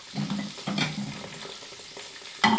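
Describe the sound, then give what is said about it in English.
Bacon frying in a pan, a steady crackling sizzle broken by a few soft scraping stirs as it is turned, ending in a sudden louder burst of hissing. “From time to time you have to turn the bacon so it's not burnt.”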